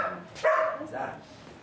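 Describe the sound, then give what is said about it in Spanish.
A small female dog barks a couple of short, sharp, high yips while people talk nearby. “La perrita no muerde”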